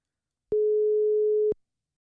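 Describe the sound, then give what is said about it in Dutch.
A telephone ringback tone on an outgoing call: a single steady, pure mid-pitched tone lasting about one second, alone between silence. “Hij gaat over.”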